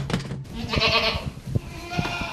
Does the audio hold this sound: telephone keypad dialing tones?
no